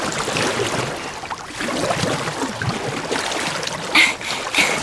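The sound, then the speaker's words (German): Water swishing and splashing as a board is paddled fast through water during a paddling course: a continuous, rushing wash with a couple of sharper splashes near the end, and no talk. “Ich paddel jetzt schon richtig schnell.”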